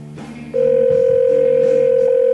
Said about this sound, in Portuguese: colocando o código de Sanga Seca, que é de onde é o celular deste cidadão, vamos lá. Chamando novamente.